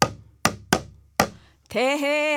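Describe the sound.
Four sharp taps on a sogo, a small Korean hand drum, each striking hard and decaying quickly at an uneven pace, followed by a short sustained voice.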